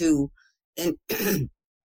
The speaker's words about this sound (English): I don't want to start coughing because I had a little thing going this week. Excuse me.